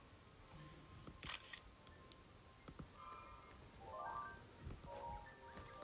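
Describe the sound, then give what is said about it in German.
A camera shutter snaps once as a photo is taken at a Great Fairy fountain in a Zelda video game. The single crisp click is set against faint, soft ambient tones and chirps. “Da ist er ja auch schon, ne? Quelle der großen Feen. Okay, dann mache ich mal ein Foto.”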